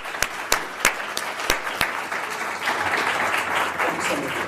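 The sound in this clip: An audience applauds to welcome a speaker, opening with a few spaced, sharp claps before swelling into a broad, steady wash of clapping from the crowd.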